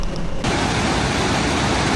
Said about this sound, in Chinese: 热带风暴雷切尔带来的巨浪猛烈冲击海岸，海水涌入住宅区。